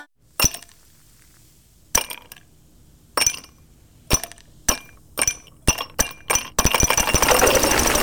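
A quartzite stone chip striking a car windscreen gives sharp, glassy cracks, widely spaced at first and then quickening, ending in a dense, continuous rattling burst.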